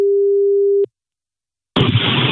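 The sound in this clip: A telephone line tone sounds as a call is placed: one steady, low, even beep lasting under a second. After a short silence, a burst of loud, harsh rushing line noise follows.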